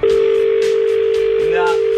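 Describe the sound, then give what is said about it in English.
A telephone line dial tone: one loud, steady, unbroken pitch that holds for the whole clip, with faint other sounds beneath it. “Let's go to phone lines and see if she's calling through right now, shall we?”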